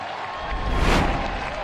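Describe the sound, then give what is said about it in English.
A football crowd roars at Winton Oval as Dogs fans celebrate, forming a dense, continuous wall of cheering and clapping that swells loudly near the middle before holding steady. “The crowd roars. McKee's kick is offline, but it does not matter to the delight of the Dogs fans at Winton Oval.”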